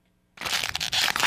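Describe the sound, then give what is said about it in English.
Disposable single-use trash being crumpled: a loud, dense crunching and crackling that bursts in after a brief silence and continues unbroken to the end. “What's that sound, you ask? It's the sound of one-time-use trash.”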